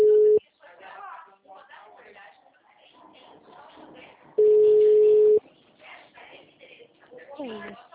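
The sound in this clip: A steady telephone line tone after a dropped call sounds in two bursts, one brief at the start and one longer later, each a flat, even pitch, with people talking in between.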